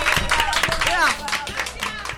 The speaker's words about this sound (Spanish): ¡Un aplauso!